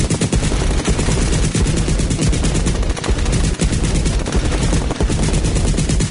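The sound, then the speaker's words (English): Rapid automatic gunfire from a WW2-era Tommy gun: loud, dense rattling bursts run without a break through the whole clip, with no talk over them. “Machine gun one I had from last week.”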